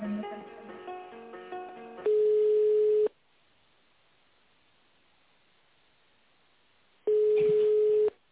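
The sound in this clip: A telephone call tone: a steady, low-pitched tone lasts about a second, then a long silence, then the tone returns. Muffled sound comes before the first tone.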